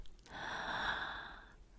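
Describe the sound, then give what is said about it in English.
A single slow, deep breath drawn in during a guided relaxation exercise: a soft, steady, airy rush lasting over a second, quiet and heard on its own. “Now take a deep breath, slowly in”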